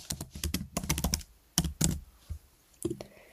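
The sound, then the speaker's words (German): Typing on a computer keyboard: rapid bursts of key clicks with brief pauses, ending in a few scattered taps after a longer gap. “Ja, ich schreibe jetzt einfach mal Apfelkuchen hin. Schrägstrich Socken.”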